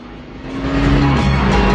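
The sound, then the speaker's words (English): Racing cars with spiked hubcaps roar loudly through a handbrake turn and a U-turn in a concrete gully; the engine noise swells and stays loud while its pitch drops midway. “makes a fancy handbrake turn. Danny merely does a U-turn round a pillar”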